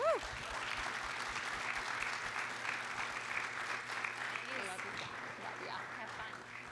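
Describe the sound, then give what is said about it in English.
Audience applause at a church service welcomes two speakers onto the stage, a steady, dense clapping that holds at even loudness through the whole stretch, with faint voices mixed in. “Can you guys give a big hand for Greg and Leah?”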